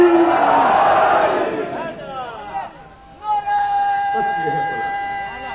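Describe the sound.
A crowd roars back a loud unison shout answering a Nara-e-Haidari call. The dense shouting fills the first two seconds, then fades into a lingering, sustained voice-like tone.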